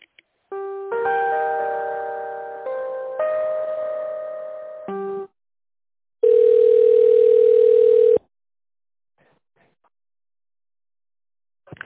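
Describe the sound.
Telephone tones play while a call is transferred to the accounting department: layered electronic chime tones shift in pitch for several seconds, then after a short gap a single steady tone holds for about two seconds before the line goes quiet.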